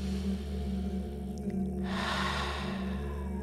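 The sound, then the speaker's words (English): A deep breath drawn in through the nose and let out through the mouth, heard as a long, airy rush of breath over a steady low hum. “take a very deep breath. In through the nose, out through the mouth. Everybody breathe with me as we start today's Nothing Personal.”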